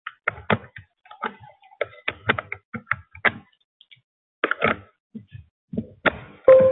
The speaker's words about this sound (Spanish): Voy a meter el pincho en el USB.